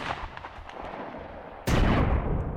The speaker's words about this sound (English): All around them, bullets were popping into the snow and mud, and the occasional rat-a-tat-tat of machine guns broke any ascendant complacency